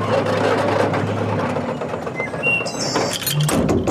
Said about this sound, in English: Moments later, as the crawler pulls into the station and parks at the pump.